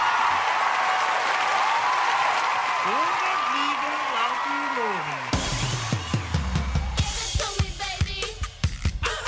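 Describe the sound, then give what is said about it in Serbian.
Audience applause at an event honouring a young silver medallist. A stretch of voice and tonal sound comes first, then claps break out midway as sharp, scattered hand claps that grow denser toward the end. “Pa molim jedan aplauz za Konstantina Kostića.”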